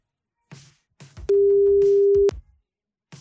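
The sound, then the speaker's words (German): A telephone call signal tone on an outgoing line: one steady, loud, mid-pitched beep lasting about a second, preceded by a few short clicks and followed by faint handling noises. “es müsste im Osternimburger Land in Anhalt-Bitterfeld bimmeln.”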